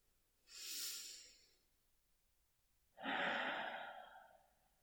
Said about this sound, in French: Respire juste avec moi, maintenant.